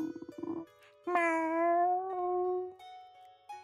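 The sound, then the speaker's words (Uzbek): A soft, drawn-out meow from Murka, a well-fed, drowsy cat. It is a single wavering tonal cry, preceded by brief pulsing sounds and followed by fainter lingering tones. “Murka esa bunga javoban bir ko'zini salgina ochib, sekingina miyovlab qo'yar ekan.”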